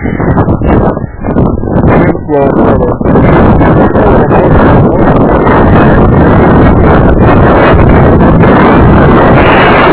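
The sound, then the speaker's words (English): A strong, cold south wind roars across the microphone, a loud, dense rush with choppy buffeting gusts in the first few seconds that settles into a steady, unbroken roar. “Being a pretty strong south wind. Usually it's north, but it's pretty cold.”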